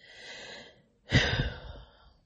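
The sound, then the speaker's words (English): Deep breathing: a soft, airy breath is followed after a short pause by a louder, longer, rougher breath that slowly fades. “I'm breathing in knowing that this is the whole process. Just breathe. Just breathe.”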